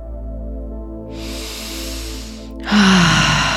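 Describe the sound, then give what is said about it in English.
A slow exhale during a guided breathing exercise: a long, soft, airy breath, then a louder and brighter rush of air, over a steady low tonal background. “Releasing the breath.”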